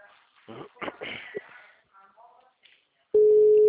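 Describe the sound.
Telephone busy signal heard while placing a call: a loud, steady single tone starts abruptly near the end and sounds alone, after a few brief, faint voices and small sounds.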